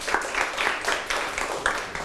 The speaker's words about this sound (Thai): ปรบมือให้เพื่อนครับ